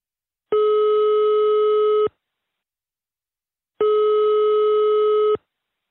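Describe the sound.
Ringing tone on an outgoing telephone call: two long, steady electronic tones of about a second and a half each, separated by silence.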